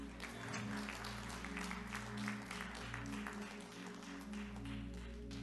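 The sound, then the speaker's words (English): Audience applause, dense steady clapping sustained throughout over held musical tones underneath. “Clap your hands for her.”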